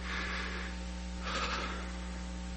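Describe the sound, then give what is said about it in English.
A person takes a slow, deep breath, heard as two soft, airy rushes separated by a short pause, faint over a steady low hum. “Take a breath, a deep breath.”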